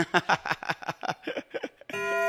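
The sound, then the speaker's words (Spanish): A clock alarm sounding at 10:48, an abrupt, steady electronic tone rich in harmonics that starts near the end, right after animated talking from a man. “Son las 10:48 minutos. El reloj ya nos está sonando por acá.”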